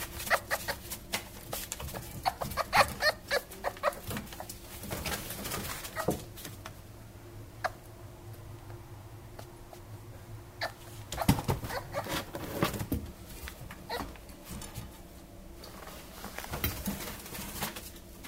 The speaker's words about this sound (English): the answer is that it's actually a fox.